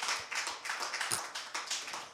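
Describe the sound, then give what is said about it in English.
Hands clapping in applause: many quick, brisk claps overlap in an uneven patter at moderate loudness, continuing throughout without voices. “Clap for him. Clap.”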